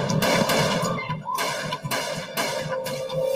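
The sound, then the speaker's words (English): Gunfire as four men open fire on a man and a waitress in a South Philadelphia mob war, with several sharp cracking shots spaced through a dense, constant background roar. “Four men pull up and open fire on Changlini”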